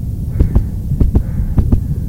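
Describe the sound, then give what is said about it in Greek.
A shop assistant's heartbeat: three low double thumps in an even lub-dub rhythm over a continuous low hum. “Αυτός είναι ο ήχος του καρδιακού παλμού ενός βοηθού καταστήματος.”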